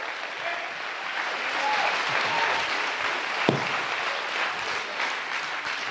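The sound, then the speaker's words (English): A church audience claps their hands in dense, steady applause that swells a little and holds for about six seconds, with one sharper clap standing out midway. “If you're a part of that church, take 30 seconds. Clap your hands, all ye people.”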